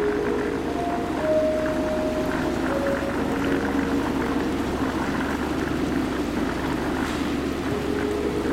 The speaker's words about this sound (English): Once the beans are soaked and ground, the milk and pulp are separated. The milk is boiled in huge pots before a coagulant is mixed through.